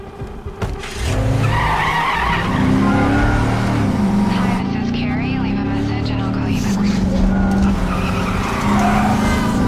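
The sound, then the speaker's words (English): Tires squeal in a long skid as a pickup truck races through traffic. Its engine roars and swings up and down in pitch, loud and continuous for several seconds. “He races to the pickup.”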